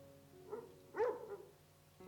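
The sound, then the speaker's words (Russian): A puppy barks angrily in a few short, faint, sharp yips, heard alone with no talk. “Заметив, что они тоже внимательно смотрят на него, он стал лаять на них сердито, как на чужих.”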